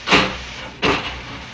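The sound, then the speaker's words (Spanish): A button press sets an automatic door sealing shut hermetically to isolate an astronaut, heard as two broad, airy hissing whooshes under a second apart over a steady low background hiss. “Doris oprimió un botón y la puerta se cerró herméticamente”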